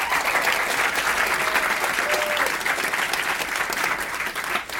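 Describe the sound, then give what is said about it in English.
An audience at the Edinburgh International Book Festival applauds to welcome author Kevin Barry. The clapping is dense, steady and loud, with a crowd sound throughout and no break or speech. “But please join me in giving Kevin a really warm welcome again.”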